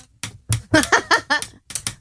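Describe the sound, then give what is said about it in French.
A pencil drummed on a surface, heard as many quick, sharp taps in a lively rhythm with a short pause before a final burst. “C'est vrai qu'on peut jouer de la batterie avec un crayon.”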